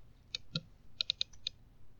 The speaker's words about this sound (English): Coin. Oh, dropped it again.